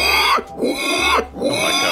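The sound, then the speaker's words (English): A man's voice imitates a mating pig, making a few loud, rhythmic grunting snorts with short gaps between them. “I've only got one impression that I do, and that is of a mating pig. Thought you might like this. It goes like this.”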